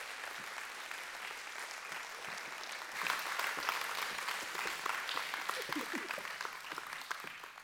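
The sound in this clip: A church audience applauds to welcome a guest speaker: dense, steady clapping throughout that swells a little louder about midway and stays full to the end.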